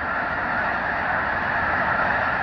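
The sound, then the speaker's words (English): Honking from an uncountable flock of snow geese taking off on a misty morning just after daybreak at a California wildlife area north of Sacramento. The calls merge into a dense, steady, loud wash like static, with no single bird standing out. “an uncountable gaggle of snow geese suddenly takes off, turning the sober sky to static.”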